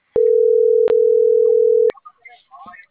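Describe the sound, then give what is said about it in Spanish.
A telephone dial tone while someone dials: a steady, loud, even tone lasting under two seconds, briefly broken once, followed by faint, scattered voice sounds. “Estoy marcando.”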